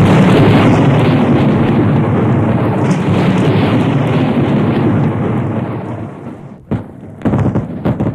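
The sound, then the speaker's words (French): An ammunition caisson explodes inside the enclosure of a fort during a battle. A loud, heavy, rumbling roar slowly dies away over several seconds, broken by a few sharper bursts near the end. “Un caisson sauta dans l'enceinte de Vertières.”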